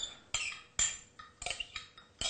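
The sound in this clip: Spoon stirring milk into a batter in a bowl, with butter already mixed in and the milk thickened like buttermilk; repeated bright clinks and scrapes come in uneven strokes, fairly quiet, with no talking.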